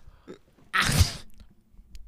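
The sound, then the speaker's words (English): A person imitates a sneeze: a brief faint intake followed by a single loud, explosive, breathy burst that fades quickly, heard alone. “my favorite TikTok Hane has ever found is just a video of somebody like turning on the camera and they just fucking sneeze and then the video ends”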